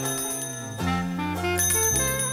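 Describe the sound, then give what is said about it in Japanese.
Bright ringing from a brass tea bell, the kind once used in large English houses to signal tea time; a few clear metallic strikes follow one another, each leaving a sustained, shimmering tone that blends into the next. “ほら、いい音でしょう。これはティーベルの音。”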